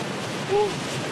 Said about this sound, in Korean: 리마 해안가에 한번 내려와 봤는데요. 파도가 어마무시하게 세차게